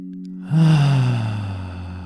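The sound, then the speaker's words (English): A deep inhale near the end of a meditation practice, a long, airy intake of breath that begins after a short pause, swells quickly and then slowly tapers over a low, steady drone. “Slowly we get back to this environment. Deep inhale.”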